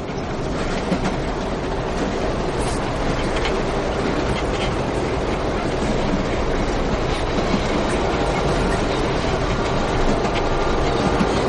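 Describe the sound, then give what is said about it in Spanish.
A passenger train travels at high speed, heard from on board as a dense, unbroken roar of rumbling wheels and rattling carriages, with a faint rhythmic clatter running steadily throughout and no voices. “El tren circula a gran velocidad.”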